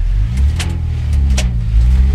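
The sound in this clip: A car drives off, its engine a steady, loud, low rumble that carries through the whole clip with a couple of brief, sharp noises over it and no talking.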